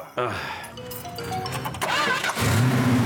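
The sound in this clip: A car engine cranks and catches into a steady, low running rumble, with people talking over the start.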